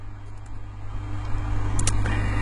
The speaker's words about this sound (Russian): Еду со скоростью 104 километра в час.